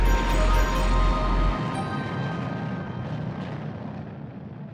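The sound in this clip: A jet airplane takes off with a loud, broad roar and a thin high whine; a heavy low rumble dominates the first second and a half, then thins into a steadier, fading wash of noise.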